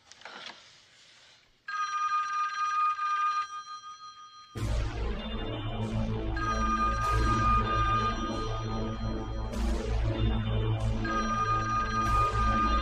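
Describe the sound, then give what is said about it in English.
A landline telephone rings in a bedroom even though its cord has been ripped out: a brief ring, then trilling bell tones that repeat steadily and loudly, joined partway through by a heavy low droning layer. “Startled, Nancy slowly steps back toward the phone. She picks up the ripped out cord and studies it. Then, she answers the phone.”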